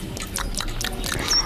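Wet slurping and smacking accompany the eating of a so-called car-cable salad. A few quick, moist bursts follow one another closely in a short, busy flurry.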